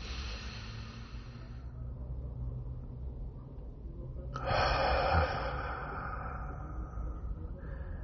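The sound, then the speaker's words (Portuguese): A single deep breath, a soft, breathy rush of air that swells midway through and then fades, over a quiet, steady background. “Tome outra respiração profunda.”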